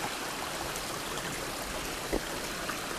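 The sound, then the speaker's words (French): A small stream flows between fir forests with a steady, even babbling wash of water, heard alone. “nous longeons ce petit cours d'eau.”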